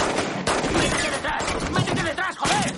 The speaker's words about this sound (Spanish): Varios hombres los tirotean desde la calle.